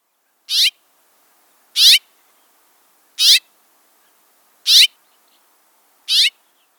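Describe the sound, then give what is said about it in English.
House finch calls, five short high chirps spaced evenly about a second and a half apart, each bright and clear against silence. “As a reminder, the house finch call sounds like this.”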